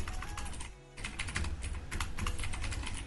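Rapid typing on a computer keyboard to enter a search, with dense, clattering keystrokes that pause briefly near the start and then continue steadily to the end.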